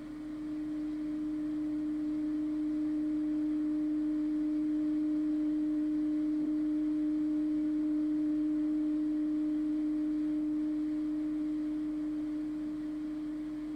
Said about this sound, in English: Next, we put a simple, clear tone in one ear, like this.